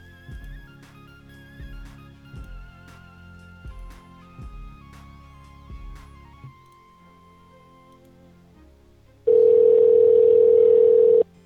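A telephone dial tone sounds after a call disconnects: a loud, steady, unbroken tone holds for about two seconds at the end, following a quieter stretch of faint tonal sounds.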